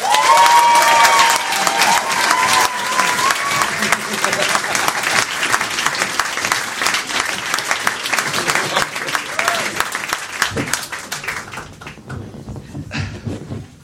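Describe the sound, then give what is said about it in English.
A studio audience applauds a guest's entrance with loud, sustained clapping that thins out and fades near the end. “Please give a massive reception to my guest today, Tim Loughton.”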